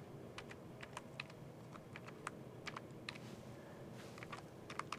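Faint typing on a computer keyboard as a command is entered: many light keystroke clicks in an uneven rhythm over a low background hum, with no voices.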